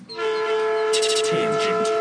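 A train horn sounds as one loud, sustained chord of steady tones that lasts the whole two seconds, with a hissing rush added in the second half.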